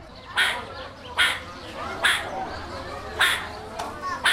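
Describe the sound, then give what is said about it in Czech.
Alarm calls of a meerkat in a zoo enclosure in winter: a series of short, harsh, barking bursts repeating at irregular intervals of roughly a second, with quieter background between them. “Tak jsem si říkal, co je to za ptáka, nebo jestli se to ozývá z vedlejšího výběhu a takový zvuk vydává surikata. Jo, to je právě ten signalizační zvuk”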